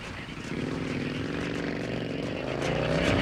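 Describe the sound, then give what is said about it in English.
A motorbike engine runs with a steady, buzzing mechanical drone that holds fairly constant and grows slightly louder toward the end. “Bud puts on his helmet and starts up the bike”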